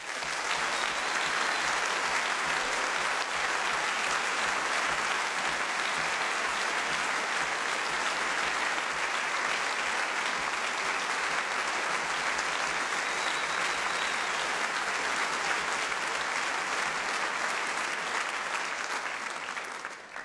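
An audience at a big band jazz concert applauds to welcome the conductor, with dense, steady clapping that holds constant for about twenty seconds before tailing off at the very end.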